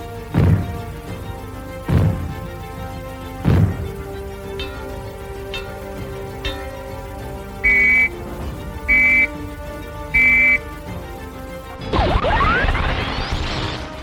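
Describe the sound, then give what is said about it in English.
Civil defence fallout warning sounds: three sharp, evenly spaced bangs, followed by three short, high-pitched whistle blasts, then a brief burst of noise. “If the fallout warning sounds are heard, they will be like these.”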